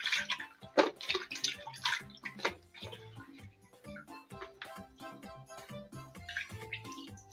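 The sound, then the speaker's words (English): Water splashes and sloshes as freshly picked herb leaves are rinsed to wash out sand, giving irregular bursts of splashing with quieter dripping and gurgling between them. “I'm going to clean the leaves by rinsing it a few times because there's sand.”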